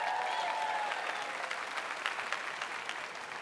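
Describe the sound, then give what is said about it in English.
Audience applause at a church service, a crowd clapping to welcome online viewers: a dense, steady wash of many hands that holds at an even, fairly loud level for the whole span without fading. “Well, hey, we want to welcome our online audience watching from all over the world. Would you give them a big hand?”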